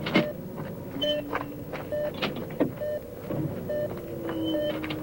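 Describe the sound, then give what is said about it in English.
A gate swings open to a low, steady mechanical whirring, with scattered short tonal beeps and clicks running through it at low volume. “And the gate swings open.”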